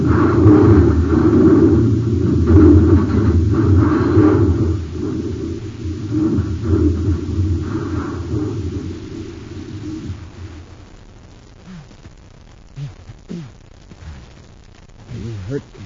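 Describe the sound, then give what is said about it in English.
Deep roaring rumble of a spaceship crashing, a radio drama effect set on the polar ice cap of Planet X. The loud, dense roar holds for about ten seconds, then thins and fades while a voice briefly surfaces. “Your Highness, we're going to crash. Let go of me, you fool!”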